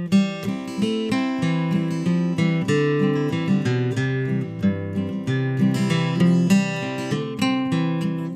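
A high-quality custom-built guitar from a luthier, played by a music teacher: a steady run of plucked notes and ringing chords, clear and bright, with no voices.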